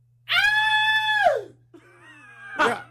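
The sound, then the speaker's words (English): A person imitating a high-pitched scream like a teenage girl's: one long, shrill, held cry that slides downward at its end, followed by quieter vocal sounds and a short burst of voice. “ah! I've heard that. You scream like that every day.”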